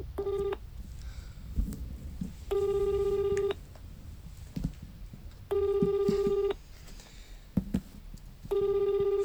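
An outgoing phone call ringing out: a repeating ringback tone in bursts of about a second, separated by longer pauses, over a low background rumble with a few faint knocks.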